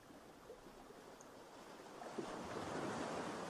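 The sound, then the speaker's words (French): Sea waves wash onto a sandy beach in a soft, steady, hissing rush that swells louder partway through, with no voices. “Le bruit de la mer vous berce, vous emmène vers votre être intérieur”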